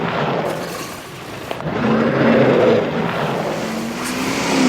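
A car engine accelerating under strain as the car struggles forward: a loud, steady roar over broad rushing noise, with an engine tone that climbs slowly through the middle and swells again near the end.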